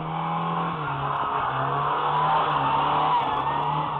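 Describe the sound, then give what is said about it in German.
A front-wheel-drive car drifts while driving in reverse. Its engine holds a steady, moderately loud droning hum with slight pitch wobbles throughout, and no voices are heard. “Bei Vorderradantrieb, wenn man driften will, einfach rückwärts fahren.”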